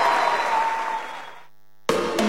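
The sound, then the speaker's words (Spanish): Clapping applause, dense and steady at first, fades gradually into silence, then an abrupt burst of a different sound follows. “¡Aplausos, aplausos!”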